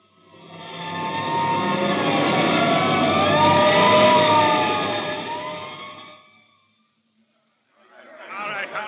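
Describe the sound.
A fire engine siren wails from a hook-and-ladder truck heading to a fire, its tone sweeping up and down over a low engine rumble. It holds loudly for about six seconds, fades out, and then a voice begins.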